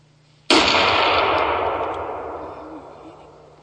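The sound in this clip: Single loud gunshot fired at a bull during a hunt: a sharp crack after near silence, followed by a long, rumbling echo that slowly fades over about three seconds.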